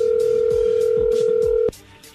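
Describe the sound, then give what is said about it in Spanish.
A steady telephone line tone plays during an attempt to redial a dropped sales call. It holds one even pitch, then cuts off abruptly near the end, leaving faint low background noise. “Ya colgó, ya colgó. A ver, márcale de nuevo.”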